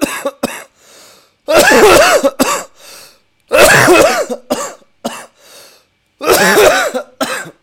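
Repeated harsh coughing in three loud fits, each a cluster of rough, throaty bursts, separated by shorter single coughs and brief quiet gaps.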